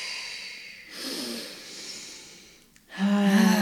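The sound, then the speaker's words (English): Slow, soft exhalations during a grounding exercise: long airy breaths out that rise and fade gently, with a voice starting at the end. “So let's feel our feet on the ground and breathe out a couple of times.”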